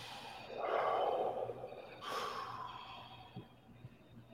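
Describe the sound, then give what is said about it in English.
A slow, deep breath drawn as part of a group pause: two long, airy rushes of breath, quiet and soft, with no talking. “Let's all take a nice deep breath.”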